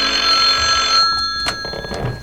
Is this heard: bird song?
no